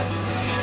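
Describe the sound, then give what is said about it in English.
Concrete being mixed: a brief, steady churning and grinding noise over a constant low mechanical hum, even in level throughout. “Concrete mixing.”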